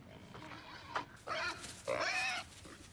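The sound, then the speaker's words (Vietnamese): Grunting of a wild boar: a few rough, raspy grunts come in quick succession. A short one is followed by two longer, louder ones over a faint, steady background noise. “đó là tiếng gì vậy? Trên tin tức nói, nơi này có thể sẽ có heo rừng.”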